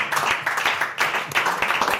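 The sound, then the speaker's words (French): An audience claps in short, uneven bursts with brief dips between them. The patter of many hands stays moderately loud throughout. “N'applaudissez pas ça, voyons.”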